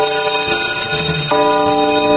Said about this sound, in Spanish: Ya tocó la campana.